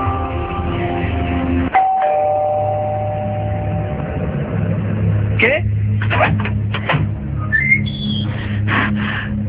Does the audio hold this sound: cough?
no

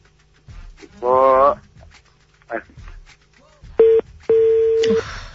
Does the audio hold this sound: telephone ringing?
yes

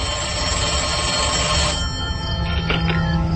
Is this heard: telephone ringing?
yes

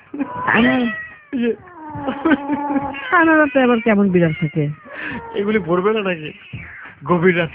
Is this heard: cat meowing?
yes

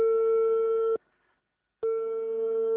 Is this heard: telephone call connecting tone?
yes

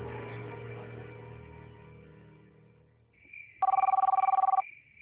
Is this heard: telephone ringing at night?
yes

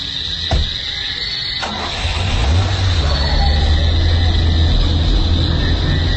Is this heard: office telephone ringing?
no

